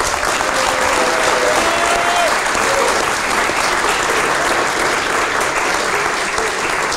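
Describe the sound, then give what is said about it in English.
Audience applause at a live readers event with John Surtees at the Bluebird in Chelsea: loud, continuous clapping from a crowd, sustained at a steady level for the whole stretch with no pause. “Ladies and gentlemen, welcome to the Bluebird in Chelsea. We're here for a very special readers event with John Surtees. Please put your hands together.”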